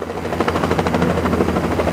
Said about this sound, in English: The helicopter brought him to the John Peter Smith Hospital in Fort Worth.